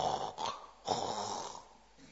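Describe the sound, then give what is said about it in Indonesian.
A voice imitates the gurgling death rattle of a dying person: a rough, snore-like rasping breath in a few drawn-out strokes, low and moderately loud, with no words. “Posisi ini ghor-ghoroh. Kalau kamu dekat pernah di samping orang yang fi sakaratil maut, terdengar seperti mendengkur.”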